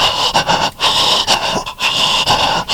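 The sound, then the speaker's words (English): A voice imitates the heavy, nervous breathing of a hunter waiting on an approaching turkey. Many quick, loud, panting huffs follow one another in an uneven rhythm, with no words. “you slow your breathing down, calm down, take some deep breaths, take some deep breaths”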